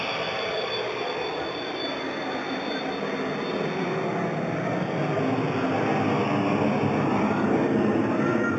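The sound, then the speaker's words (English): Stage smoke machines running as actors enter, a loud, steady rushing hiss that continues without a break and swells slightly toward the end. “And the actors enter the stage. You can hear the smoke machines.”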